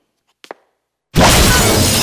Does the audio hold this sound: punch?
no